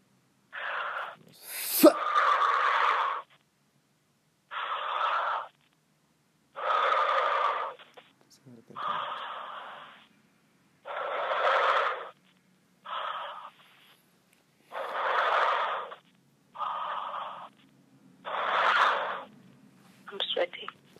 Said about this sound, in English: Breathe in and out five times heavily.